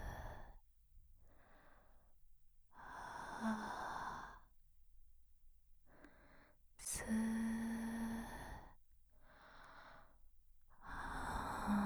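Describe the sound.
Deep, slow breathing, with several soft, airy inhales and exhales separated by pauses. One longer, louder exhale carries a faint voiced hum, like a sigh.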